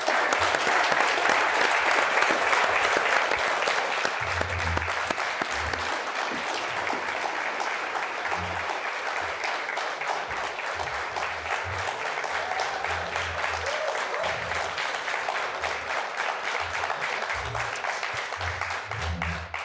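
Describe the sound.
Loud, sustained audience applause at a presidential candidate meeting. Dense clapping runs unbroken for the whole stretch at a steady level, with no pauses or talk over it.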